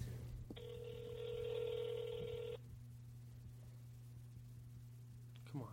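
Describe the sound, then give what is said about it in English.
Telephone ringing on an outgoing call: a single steady ringback tone of about two seconds, faint over a constant low hum, followed by quiet line noise and a click at the end. “Come on, Todd, pick up.”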